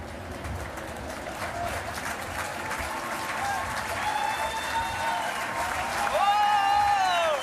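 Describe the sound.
Dense crowd applause at a baseball game, a steady wash of clapping that holds for several seconds and swells slightly louder near the end.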